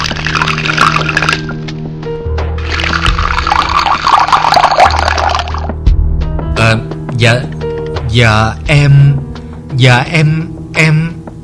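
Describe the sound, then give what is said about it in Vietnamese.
Tea poured into a cup, heard as a steady, fairly loud hissing pour in two stretches. A voice then speaks over short bursts of sound. “Xin ân cần pha cho cô cốc nước trà.”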